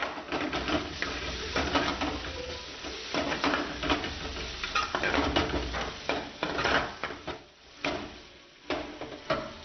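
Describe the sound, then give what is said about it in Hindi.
Onions sizzle and brown in a pan in a restaurant serving Indian, Kashmiri and Iranian Mughlai food. A dense, steady frying hiss runs throughout, broken by scraping stirs and clattering cookware. “ये हमारी प्याज brown हो रही है।”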